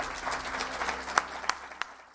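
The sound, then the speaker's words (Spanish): Audience applause at a talk, a dense and fairly even patter of clapping that holds steady for about two seconds, with a few sharper claps standing out near the end. “Le pido un fuerte aplauso para este gran genio de la ovniología que es Salvador Freixedo.”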